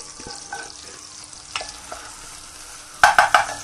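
Bacon sizzling in a pot, a steady soft hiss with scattered small clicks and a few louder stirring scrapes close together near the end.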